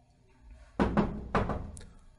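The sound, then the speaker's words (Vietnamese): Knocking on a room door: quick raps in two close pairs, moderately loud against a quiet background, with no talk. “Có tiếng gõ cửa phòng vang lên”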